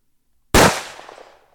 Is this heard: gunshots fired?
yes

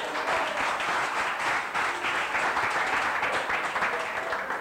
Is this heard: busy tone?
no

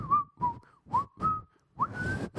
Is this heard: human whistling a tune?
yes

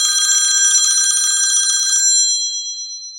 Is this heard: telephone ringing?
yes

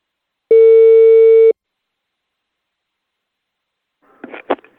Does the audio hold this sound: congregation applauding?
no

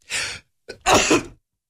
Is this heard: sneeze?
yes

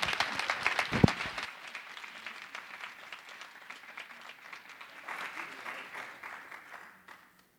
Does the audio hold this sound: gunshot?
no

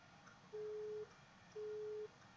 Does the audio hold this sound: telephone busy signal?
yes

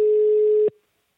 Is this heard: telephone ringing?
yes

